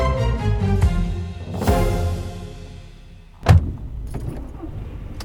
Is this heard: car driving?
yes